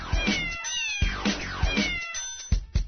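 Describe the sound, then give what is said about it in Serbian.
Domestic cat meowing, a series of several drawn-out, whining meows, each sliding down in pitch, heard alone without talk. “Neobična mačka ne zaostaje mnogo. Njoj je potrebno 11 do 12 sati sna.”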